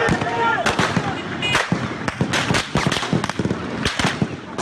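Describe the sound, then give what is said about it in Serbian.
Gunfire recorded at night on Istanbul streets during military unrest, with tanks out and shots fired at civilians: many sharp, loud bangs in irregular bursts and clusters, with voices in the background. “Zvuci koje čujete, zvuci pucnjave, zabeleženi su noćas na ulicama Istanbula.”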